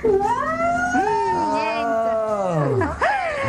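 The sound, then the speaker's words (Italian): A hungry cat at a radio station lets out a loud, drawn-out caterwauling meow that wavers in pitch, then a shorter second meow follows at the end. “Ma date da mangiare a questo gatto ogni tanto?”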